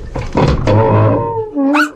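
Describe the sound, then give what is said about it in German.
A dog that has been scratching at a crate gives a drawn-out, voiced whine with a low, rough onset, ending in a brief rising high yelp, loud and without talk. “Hey, was kratzt du an der Kiste, Timmy? In der Kiste ist doch nichts. Bitte überzeug dich selbst. Ich hebe den Deckel hoch, du dummer Hund.”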